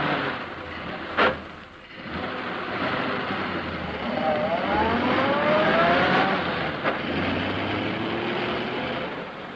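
A car engine catches and the car drives off after being pushed down a road slope, a steady noisy rumble with a brief knock early on and an engine note climbing in pitch midway.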